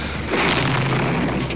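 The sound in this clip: Bullets strike during the 1956 Soviet tank assault on Budapest, a few sharp impacts cracking over a constant, rough background of noise.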